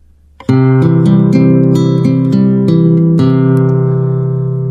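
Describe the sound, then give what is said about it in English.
A C chord is fingerpicked on guitar with an alternating bass pattern. Many plucked notes follow in a steady, even rhythm, ringing into one another, loud and played alone. “So let's look at the first example here where we're playing a C chord, which should sound something like this.”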